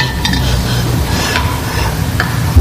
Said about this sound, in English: give it a stir.